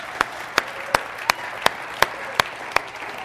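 A church audience claps for its sound team in a steady, even beat of eight sharp claps, evenly spaced and alone.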